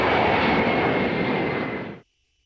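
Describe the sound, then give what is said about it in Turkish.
Jet aircraft engine roar as a presidential airplane departs from Esenboğa Airport. The loud, broad, steady rush fades slightly, then cuts off abruptly after about two seconds, leaving near silence. “Esenboğa Havalimanı'ndan ABD'ye hareket eden Trump'ın dönüşte başka bir başkanlık uçağını tercih etmesi dikkat çekti.”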